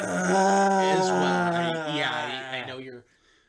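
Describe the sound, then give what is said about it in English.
A person's long, loud groan, voiced and sustained, wavering in pitch through its middle before cutting off abruptly near the end. “Sorry for that little, you know, stabbing to the ears with my groan”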